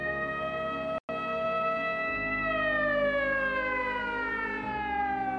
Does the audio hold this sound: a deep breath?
no

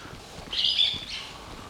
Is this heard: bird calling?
yes

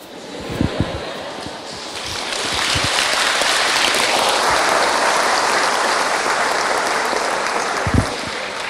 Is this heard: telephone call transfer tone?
no

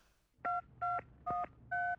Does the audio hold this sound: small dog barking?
no

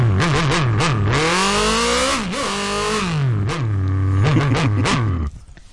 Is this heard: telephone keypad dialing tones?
no

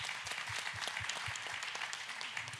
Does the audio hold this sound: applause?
yes

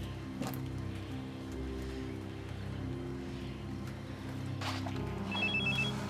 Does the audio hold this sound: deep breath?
no

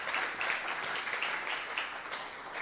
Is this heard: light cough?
no

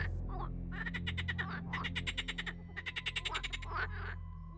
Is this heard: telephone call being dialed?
no

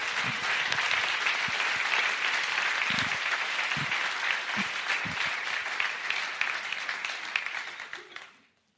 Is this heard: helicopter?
no

